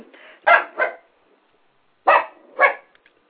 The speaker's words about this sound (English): And now I have a dog here who prefers to kind of bark, and maybe she agrees.